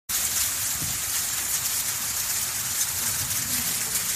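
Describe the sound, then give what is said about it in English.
Volcanic ash falling like rain soon after the Hunga Tonga-Hunga Ha'apai eruption in Tonga, a steady, soft, even hiss of pattering particles that holds without a break. “That's the sound of ash rain soon after the Hungatonga Hungahaapai volcano erupted on January 15th.”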